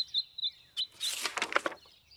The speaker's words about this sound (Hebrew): יש פה גוזלים.